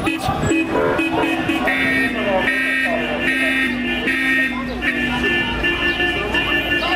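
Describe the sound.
Passing cars honk their horns in support of a street protest, sounding loud, overlapping sustained tones that carry on almost without a break over traffic noise.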